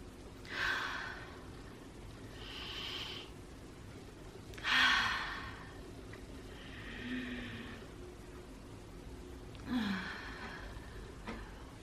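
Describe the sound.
Slow, deliberate breathing during a pelvic-floor breathing exercise: a few soft, audible inhales alternating with long, airy exhales in an unhurried rhythm, with no talking.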